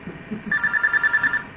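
Telephone ringing: a rapid, trilling electronic ring with a fluttering pulse, moderately loud, starting after a brief low murmur.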